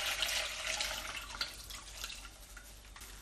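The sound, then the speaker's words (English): Liquid strains through a sieve into a bowl as a sugary fruit shrub mixture of peel and pulp is separated, giving a faint, steady watery hiss and trickle with no voices. “I'm just going to sieve it over another bowl. Right, I'm just going to strain it now.”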